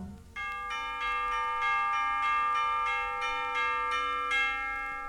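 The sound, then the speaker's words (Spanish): Bells chime the hour of six in a children's song, ringing out as a steady series of bright strikes with long, sustained tones. No voices are heard. “¿Qué horas son? Son las seis, las campanas dan dindón, te lo dicen en canción.”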